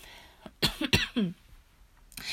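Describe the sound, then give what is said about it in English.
A few short, raspy coughs from one person come in a quick cluster, fairly loud against a quiet background, with no talking. “excuse my little coughs”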